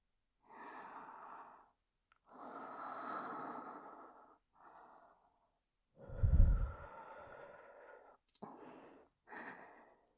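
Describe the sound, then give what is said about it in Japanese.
Close, intimate ASMR breathing into the listener's ear: several soft, airy exhalations separated by pauses, one of them heavier and deeper, with no speech. “吐息を受けることによって、興奮するようなフェチもある。ということですね。”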